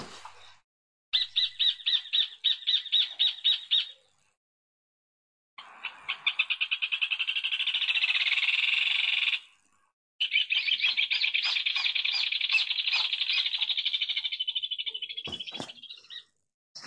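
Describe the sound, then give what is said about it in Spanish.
Rufous hornero, Argentina's national bird, singing in loud, shrill bursts. A stuttering series of repeated notes comes first, then a long rapid trill, then another extended chattering trill that breaks off abruptly. “Así como hace años eligió por una encuesta popular en los colegios el ave nacional, de la cual salió favorecido el hornerito que estamos escuchando,”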